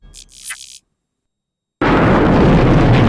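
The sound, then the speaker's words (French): A satellite explodes with a loud, sustained roaring blast that starts abruptly after a moment of silence and holds steady to the end. A brief, fainter higher-pitched sound comes before the silence. “elle est tellement badass qu'elle fait péter le satellite en le regardant”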